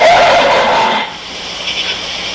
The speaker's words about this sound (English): Oh, you folks didn't recognize that. That's a horse. And not a donkey.